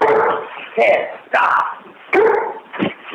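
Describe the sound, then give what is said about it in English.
A dog barks in the room during a phone conversation, giving several loud, sharp barks in quick succession with short gaps between them. “Sorry about the dog.”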